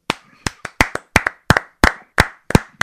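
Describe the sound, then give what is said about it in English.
Audience applause of sharp, loud hand claps, many of them in a steady rhythm of paired beats, with no cheering or voices. “He's like, I'm just going to let the applause go, see how long this goes, and this is awesome chant to kick into.”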